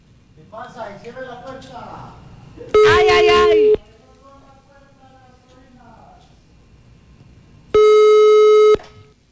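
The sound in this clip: A telephone call tone sounds as two long, steady, loud beeps about five seconds apart. People talk quietly between them.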